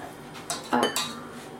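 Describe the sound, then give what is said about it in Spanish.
Pepper pieces drop into a cooking pot with a few short metallic clatters and clinks, brief and moderately loud against a quiet kitchen background. “Vale, pimiento a la olla.”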